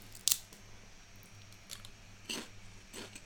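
Crunchy potato chips being bitten and chewed: a few sharp, crisp crunches at irregular intervals, the first the loudest, with quiet chewing between them and no talk.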